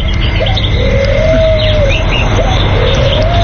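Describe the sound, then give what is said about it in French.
Mourning dove cooing in the morning, a few long, smooth whistled notes rising over steady, loud background noise. “Ça, c'est la colombe du matin, ça.”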